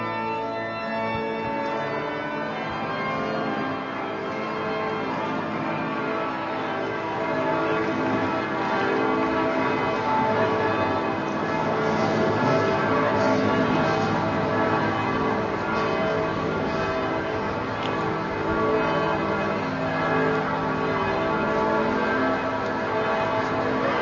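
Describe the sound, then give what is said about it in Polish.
Cathedral church bells peal steadily throughout as a vespers procession heads toward the cathedral. The strikes are dense, layered and overlapping, forming a loud, continuous wash of ringing tones. “Dokonywać się to będzie przy dźwięku bicia dzwonów.”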